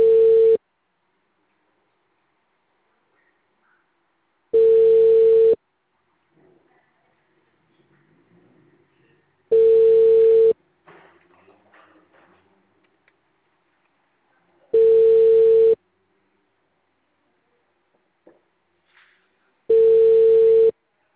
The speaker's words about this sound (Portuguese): Não estão trabalhando, né, amiga? O número discado não está atendendo.